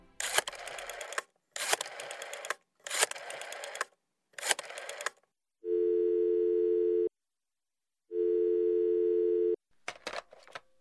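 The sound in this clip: Two long, steady telephone ring tones for a call placed on a radio show, each lasting over a second with a pause between, preceded by a few short noisy bursts and followed by brief crackly ones.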